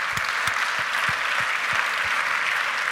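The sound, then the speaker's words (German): Applause from the audience at a startup founders' award ceremony at an entrepreneurship summit: a dense, steady wash of many hands clapping that holds at an even level for the full three seconds, with no voices standing out. “Also das ist wirklich, also von meiner Seite her ein großer Applaus.”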